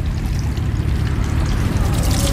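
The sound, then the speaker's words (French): Water poured outdoors over the left hand while washing: a steady, continuous splashing trickle at moderate level throughout, with no voices. “On verse une fois comme ça sur la main gauche.”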